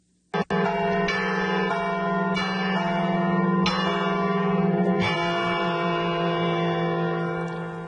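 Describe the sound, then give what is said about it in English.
Church bells ring out from an old church tower, sounding again after more than a decade of silence. Repeated strikes swell over a continuous, resonant metallic hum that carries throughout with no voices. “that is the sound of the church bells ringing after more than a decade of being dormant.”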